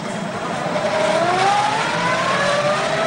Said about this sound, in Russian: Валерия Степановна цепляется за машину, проезжающую в порт